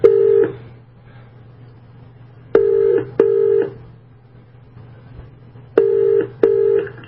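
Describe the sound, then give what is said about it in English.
Ringback tone from a call placed over a Skype line to a New Zealand phone number: a clipped ring opens, then two paired double rings, each burst a steady mid-pitched buzz, over a constant low hum. “Let's see if we can connect here to the Skype line through his phone number in New Zealand. Believe it or not, that's the phone ringing here.”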